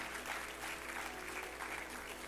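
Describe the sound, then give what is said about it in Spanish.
A church audience applauds during a service, with steady, even clapping heard quietly throughout. “Un aplauso al Señor, gloria al Señor.”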